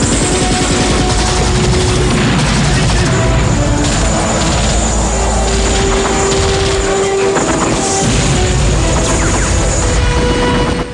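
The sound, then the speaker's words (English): Rifle gunfire and explosions fill a Rambo film battle as Mujahideen fighters shoot at a low-swooping helicopter gunship over a village, a loud, unbroken roar of combat noise throughout. “Mujahideen fighters return fire with their rifles. Fireballs erupt as the chopper swoops low.”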